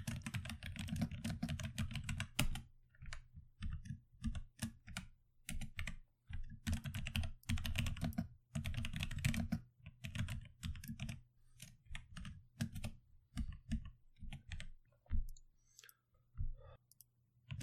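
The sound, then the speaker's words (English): Rapid typing on a computer keyboard while show notes are written, loud clacking keystrokes in bursts broken by brief pauses, with no one speaking. “Sorry for all the clacking. I gotta write in show notes.”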